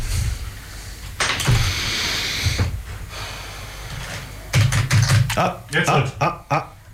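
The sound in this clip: Buttons being pressed on audio equipment: scattered mechanical clicks, then a cluster of sharp, quick clicks and taps toward the end, with people talking.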